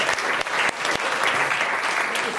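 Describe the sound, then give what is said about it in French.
Audience applause for a guest who has just answered well, a loud, continuous wash of many people clapping that stays steady for the whole stretch. “Et puis on applaudit notre invité qui a une nouvelle fois bien répondu.”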